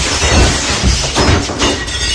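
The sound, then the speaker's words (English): Window glass shattering, a loud, dense crash of breaking glass followed by continuous noisy debris for about two seconds, with no talk. “Uh-oh. I broke the window. Okay, quick, glue? No. Tape? No, it's shattered.”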